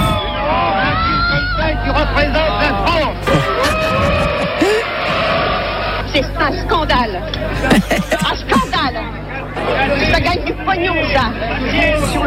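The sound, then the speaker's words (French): Agitated film spectators react as they leave a 1973 screening of a controversial feature: a loud, continuous hubbub of overlapping voices, with sharper shouts and raised exclamations breaking through the crowd babble. “Le film fait grand bruit. Réaction nerveuse des spectateurs.”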